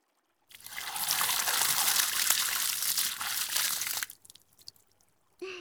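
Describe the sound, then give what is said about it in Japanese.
Water is rinsed over a body to keep it from getting cold: a loud, steady rushing pour for several seconds stops abruptly, followed by a few faint drips and a brief voice at the end. “流さないと体冷えちゃうよ。しっかり流しますね。”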